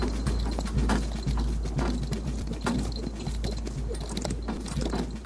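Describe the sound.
Horse-drawn wagon moving along a rough road in a western setting: steady clip-clop of hooves mixed with jangling, rattling metal over a dense, continuous rumble, with no talk.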